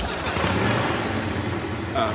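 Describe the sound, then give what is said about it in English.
A motorcycle engine runs with a steady, rough rumble that continues under people talking. “Hey, could you shut the motorcycle off? I'm in the middle of an interview here.”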